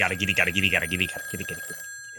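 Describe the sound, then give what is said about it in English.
A telephone rings early in the morning, a loud, rapid trilling ring in warbling bursts over roughly the first second, then fading away. “Tyler, you wake up again. Phone call. Early.”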